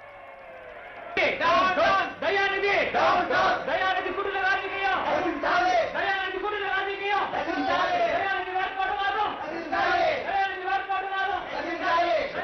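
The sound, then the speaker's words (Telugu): A crowd of people shouting together outside, many overlapping voices raised in loud, continuous clamor. It begins with a quieter murmur, then surges and holds steady at high volume for about eleven seconds. “ఏమిటా బయట కేక? జనం గుమిగూడారు, వాళ్ళకి ఏం కావాలి?”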